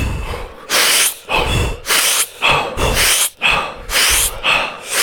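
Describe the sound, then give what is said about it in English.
Forceful breathing in and out through the mouth during an exercise workout: many quick, loud, hissing breaths in a steady rhythm, with no talking. “So with this one, you're going to breathe in the mouth, out the mouth. In.”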